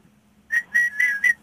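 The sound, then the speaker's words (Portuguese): Whistling of a short tune: four clear, high, pure notes in quick succession, the middle two held a little longer, with no talking. “Então, assobia lá um bocadinho, para nós ouvirmos.”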